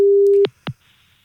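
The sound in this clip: Telephone line tone heard while placing a call: one steady electronic beep that cuts off abruptly, followed by two short clicks and a faint hum.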